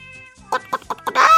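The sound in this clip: A hen clucks: four short, evenly spaced clucks, then a longer, louder squawk, over a faint sustained tone.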